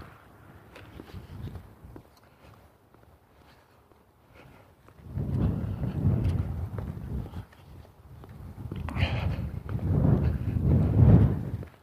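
Wind buffets the microphone as someone moves north into it, producing low, rumbling gusts that drop off in the middle and swell louder toward the end, with soft thumping steps mixed in.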